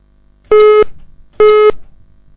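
Two short electronic beeps from a telephone being dialed, each steady and even in pitch with a bright buzzy tone, separated by a brief gap and heard alone without voices.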